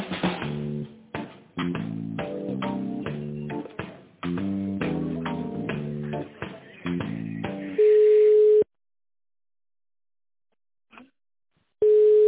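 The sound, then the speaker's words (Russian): Band-limited telephone line audio plays during a call transfer: a run of electronic tone notes in a melodic pattern, then a steady held tone, a pause with a faint blip, and the steady tone again. “Сейчас соединю с отделом, оставайтесь на линии, пожалуйста.”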